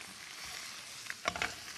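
A stir-fry sizzles in the pan after oyster sauce is added: a steady, bright frying hiss with a few brief crackling spurts near the end.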